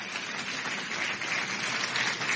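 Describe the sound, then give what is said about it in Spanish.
Applause from an audience during a religious sermon, a brief, steady burst of many hands clapping at an even level, with no voices over it. “Un aplauso a Jesucristo nuestro Señor.”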